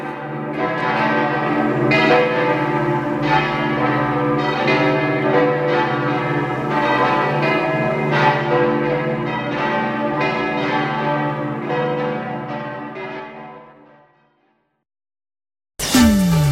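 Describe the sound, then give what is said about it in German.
Seven church bells peal from the tower of the church in Mals, a dense, continuous overlapping ringing that stays loud for about fourteen seconds before fading into silence, with a short unrelated sound at the very end. “Aus dem Turm der Kirche von Malz erklingen 7 Glocken.”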